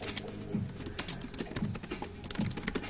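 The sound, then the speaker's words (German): Someone types on a computer keyboard to write a message into a chat, producing many quick, irregular clicking keystrokes with no voices. “Ich schreibe jetzt mal was in den Chat.”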